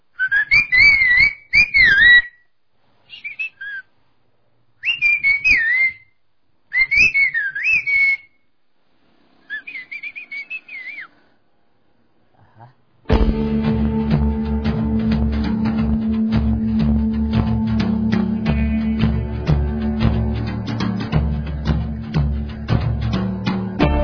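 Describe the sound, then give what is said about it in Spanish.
Human whistled calls: a series of short, shrill, warbling phrases with wavering pitch separated by pauses, then giving way to a steady, dense wash of sound. “Si ahorita puedo hacer un chiflido hacia mi primo que se encuentra allá afuera, sin verme me puede contestar.”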